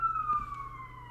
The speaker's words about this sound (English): I forgot what it's like to record when we have ambulances going by every 5 seconds.